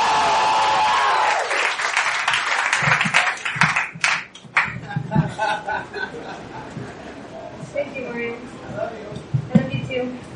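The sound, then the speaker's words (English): An audience at a live event applauding, a dense, loud burst of clapping through the first second and a half that quickly dies away as a voice starts talking over the fading claps. “Make some noise for Anna, ladies and gentlemen. Raise the fucking roof”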